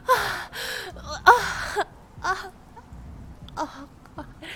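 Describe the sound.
Heavy, ragged breathing during sex, in a series of breathy bursts with voiced gasps and moaning whimpers between them, rising and falling in loudness without any spoken words.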